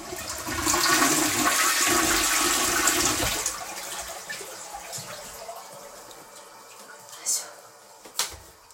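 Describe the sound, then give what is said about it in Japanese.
A toilet flushes with a loud rush of water for about three seconds, then subsides into a quieter trickle of refilling, with two brief clunks near the end. “ちょっとじゃあ流しますね、うるさいかもしれない。”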